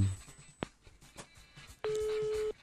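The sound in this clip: Telephone call to a number that goes unanswered because the office staff are on strike. A brief tone blip is followed by a steady, even line tone, with faint voices around it.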